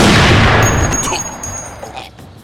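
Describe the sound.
A sniper rifle gunshot: a single loud, sharp blast whose rumbling tail fades over about two seconds.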